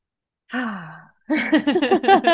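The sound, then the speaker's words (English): A deep audible breath in and out, heard as a voiced sigh with a falling pitch, followed by a quick run of loud, breathy vocal pulses. “Yes, let's take a deep breath.”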